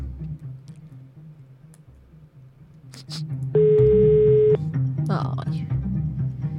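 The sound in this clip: A phone call is placed and rings unanswered. Soft clicks are followed by one steady, buzzing tone lasting about a second, with people talking before and after it.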